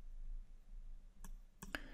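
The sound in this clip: Faint, sharp clicks from a computer mouse right-click, a few brief dry taps close together over a low background hum, with no talk.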